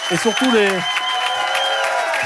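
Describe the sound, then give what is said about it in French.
A comedy club audience applauds, steady clapping that carries on throughout, while a voice speaks over it at the start. “Applaudissements pour le Hurlu Comedy Club qui nous a accueillis aujourd'hui. Nous serons de retour ici à Montpron la semaine prochaine. Le public peut aussi s'applaudir.”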